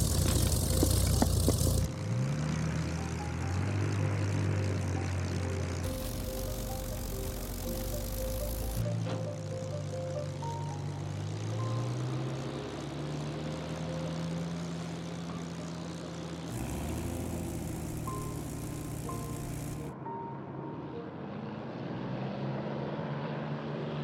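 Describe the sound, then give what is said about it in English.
Propeller engine of a single-seat monoplane fighter taking off: a steady, loud droning roar with shifting engine tones and several abrupt jumps in tone and level. “The pilot came out and got in. And then off he went.”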